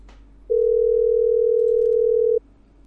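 A telephone dial tone plays while a number is being dialed to a debt collection line. One steady mid-pitched tone runs for about two seconds, alone and even, then stops abruptly.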